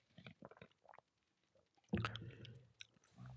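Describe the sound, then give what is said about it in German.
Sipping and swallowing of a non-alcoholic cold drink: several small wet sips, a pause, then a louder gulp and swallowing sounds, all soft and close. “Ich trinke ein bisschen hier vom Kaltgetränk nach wie vor äh, ohne Alkohol”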